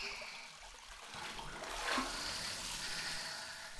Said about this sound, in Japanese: いいお湯加減。この温泉は単純温泉なんですよ。